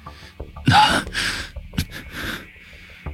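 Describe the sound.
Heavy panting as a man catches his breath: a few loud, rough gasping breaths, then softer, uneven breathing with snorting edges.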